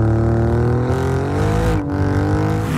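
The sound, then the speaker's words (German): An Alfa Romeo car engine revving in a loud, steady harmonic drone, its pitch climbing slightly before a brief dip and recovery near the end. “Der Alfa Romeo Sound.”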